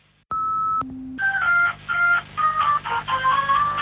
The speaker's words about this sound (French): Vous entendez en fond, c'est le son de ma Game Boy. Je joue à Pokémon depuis un petit moment.